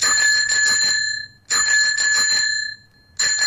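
A postman rings his bicycle bell in bright, rapid metallic trills. The ringing comes in three loud bursts, each fading briefly before the next, and the last burst is cut short.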